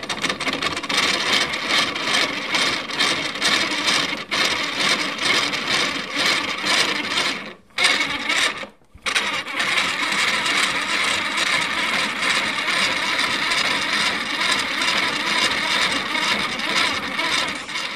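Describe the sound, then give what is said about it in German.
A wooden spinning wheel runs with a steady, dense mechanical clatter and ratcheting whir that continues almost unbroken, apart from two brief pauses near the middle. “Jetzt setze ich Anja noch für uns ans Spinnrad und sie kriegt es sogar zum Laufen.”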